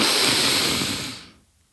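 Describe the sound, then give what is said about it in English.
A deep inhale through the nose makes one long, breathy hiss lasting just over a second. It is loud at first, then fades quickly into quiet. “we're going to inhale deeply through our nose where you go”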